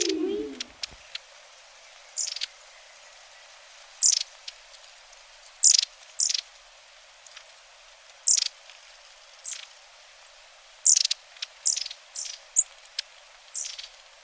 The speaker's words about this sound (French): Très beau chant de mésange à longue queue !